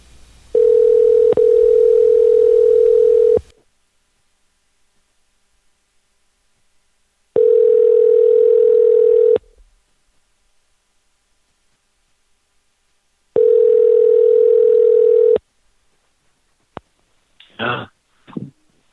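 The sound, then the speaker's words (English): Ringback tone of an outgoing phone call placed with caller ID blocked: three long, steady electronic tones separated by pauses of about four seconds, with a brief voice right at the end. “Let's see if it actually calls. Better not call this number again. Spooky phantom ringing.”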